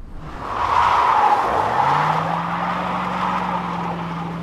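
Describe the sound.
A Prius hybrid car skids with a sustained, loud tire squeal. Partway through, a low engine drone rises and then holds steady under the screech until the end.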